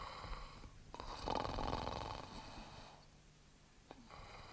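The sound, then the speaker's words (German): Heavy snoring from a sleeping man with a thick neck: a long, rasping breath that swells and slowly fades, then a shorter breath near the end. No voices are heard. “Lächerlich, dieses Schnarchen.”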